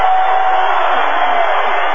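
Crowd noise in a college basketball arena during a Middle Tennessee versus Denver game, a loud, steady wash of cheering with no clear breaks.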